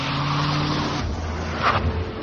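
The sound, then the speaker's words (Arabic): A car engine runs with a loud, steady low hum, then shifts in tone about a second in as the car pulls away, staying loud to the end. “أدار محرك السيارة وانطلق.”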